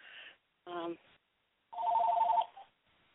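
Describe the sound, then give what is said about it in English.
An incoming call sets off a telephone ring: a warbling, steady electronic tone in one sustained burst of under a second, with short tonal, voice-like sounds before it and quiet gaps around it. “I keep getting this phone call”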